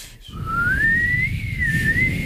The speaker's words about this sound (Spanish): ¿Sabéis silbar bien vosotros?